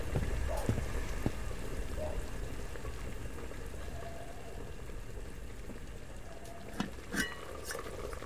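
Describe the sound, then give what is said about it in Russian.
Water boiling in a pot gives a steady bubbling, hissing rush that runs throughout, with a few brief sharp clinks near the end. “Настя смотрит на кипящую воду.”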